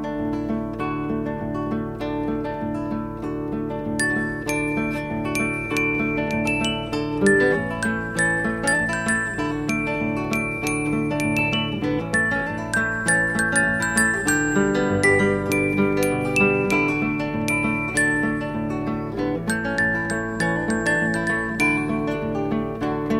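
A gentle German song plays as an instrumental passage. Tinkling, bell-like melodic notes ring over sustained low tones at a steady, moderate loudness.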